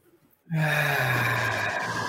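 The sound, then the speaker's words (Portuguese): A deep breath drawn in after near silence, starting abruptly and continuing as a steady, loud, rushing airflow to the end. “Vamos respirar, respira profundamente. Segura.”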